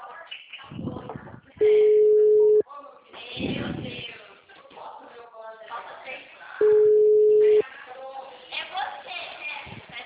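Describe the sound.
Telephone line tones during a call: two steady, flat beeps, each about a second long and spaced about five seconds apart, with someone talking between and around them.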